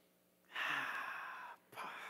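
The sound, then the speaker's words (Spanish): A deep breath taken during a guided breathing moment in a sermon: a faint, airy inhale lasting about a second, a short pause, then another breath begins. “si tú eres de Dios, respira conmigo”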